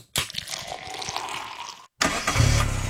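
A car engine cranks with a rapid rhythmic chugging, drops into a brief silence, then roars into a steady, loud running sound.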